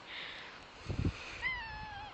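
A dirty male cat gives one drawn-out meow near the end, its pitch sliding slightly downward, after a few soft low thumps. The sound is faint overall.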